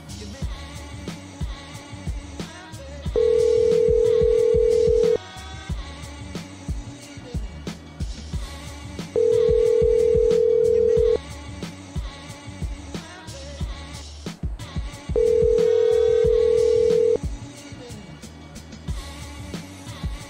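Telephone ringing: three long, steady mid-pitched tones of about two seconds each, repeating at even six-second intervals over a continuous busy background.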